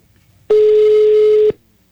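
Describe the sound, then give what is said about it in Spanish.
A single steady electronic telephone tone lasts about one second as a mobile phone call goes to voicemail. It is loud and alone, and it starts and ends cleanly. “Correo de voz.”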